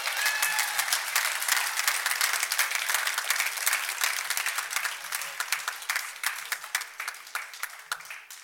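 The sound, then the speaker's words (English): Crowd applause for a baseball manager, a loud sustained wash of many hands clapping that gradually thins into more separate, distinct claps toward the end. “Let's hear it for the skipper, Tony La Russa.”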